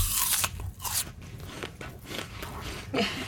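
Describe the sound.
Crisp crunching as someone bites into a crunchy green apple, a few sharp bites spread across the moment, with softer chewing in between.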